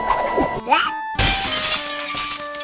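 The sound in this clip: A window pane shattering in one sudden, loud crash that bursts in after a tonal passage and leaves a bright, ringing spray of glass noise trailing on to the end.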